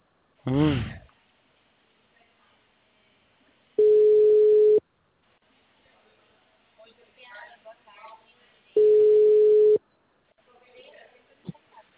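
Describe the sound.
Telephone busy tone after a dropped call: two long, steady beeps about a second each, separated by quiet gaps, with a brief voice at the start and faint rustling between the tones.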